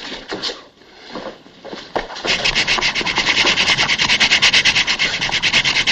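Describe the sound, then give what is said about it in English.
Sandpaper rubs back and forth across a wooden chest in a comedy sketch. After a couple of seconds of scattered scuffs come many quick, even, rasping strokes in a steady rhythm that stay loud to the end. “The next step is to sandpaper the chest. Must be something new in dentistry. Okay, Doc. Sandpaper.”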